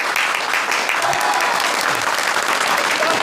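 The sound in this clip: Applause from a reunion audience of former sent-down youth welcomes the Party secretary from their Fangshan village days, a steady, even clatter of clapping that holds for the whole stretch.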